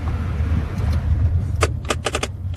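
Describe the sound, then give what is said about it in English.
A car handbrake being released, heard as a few quick rattling clicks near the end over a steady low engine rumble. “Would you mind letting go of the handbrake?”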